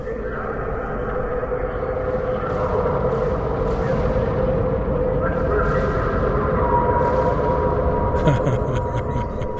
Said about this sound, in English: It's the sound of an empty industrial fuel tank. And you can hear the eerie echoes of human conversation inside.